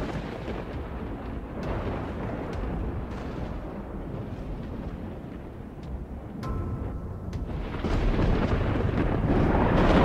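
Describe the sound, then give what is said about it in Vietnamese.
Thunder from a lightning bolt striking down from the sky rolls as a dense, continuous low rumble with a few sharp cracks, swelling louder toward the end. “Vừa dứt câu thì từ trên trời một tia sét giáng xuống.”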